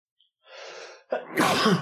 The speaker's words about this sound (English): Ow, I can't stop sneezing.